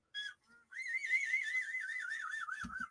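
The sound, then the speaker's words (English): Reconstructed Utahraptor dinosaur call: a whistle-like, whinnying tone with two short chirps followed by a long, wavering warbled cry that ends in a low thump. “That sounded like a horse. Utah Raptor.”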